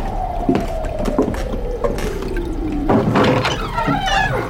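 A toilet flush into a bucket: rushing, gurgling water under a long whining tone that slides steadily downward in pitch, with scattered knocks and splashes and a louder churning surge toward the end, no talk.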